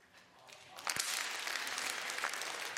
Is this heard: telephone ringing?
no